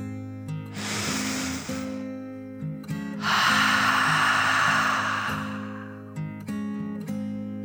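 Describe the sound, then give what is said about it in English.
Two long, airy deep breaths, in and out, like children taking slow dragon breaths, drawn over a soft musical backing with steady low tones. “The children each took a deep dragon breath, in and out.”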